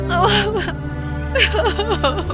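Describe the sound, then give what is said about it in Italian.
A young girl sobbing and whimpering in two gasping, breathy bursts, with shaky voiced cries rising and falling over a steady low background. “Non piangere, Cenerentola. Ti aiuterò io, mia piccola.”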